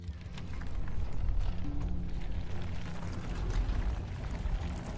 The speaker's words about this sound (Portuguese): E o portão que tava atrás de vocês fecha.